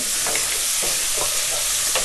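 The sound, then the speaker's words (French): Bacon lardons fry in their own fat in a pan with a loud, steady sizzle, while a few scraping bursts mark them being stirred and turned over. “là je les remuerai quand même un peu je les retourne un petit peu pour, pour qu'ils se colorent des deux côtés”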